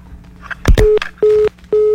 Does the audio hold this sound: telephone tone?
yes